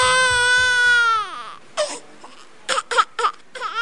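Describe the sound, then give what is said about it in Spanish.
A baby girl crying: a long, high wailing cry that trails downward in pitch, then several short, sharp sobbing bursts with gaps between them. “¿Qué es que hace llorar tanto esa niña, machona? No, pero papá, no sé qué tiene, por todo chilla.”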